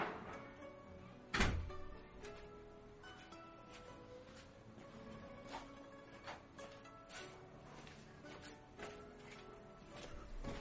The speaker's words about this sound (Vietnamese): Đợi mình chút, bên ngoài đang ồn quá, mình ra đóng cửa lại.